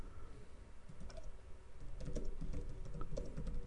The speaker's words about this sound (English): just type refresh in there, if you don't mind.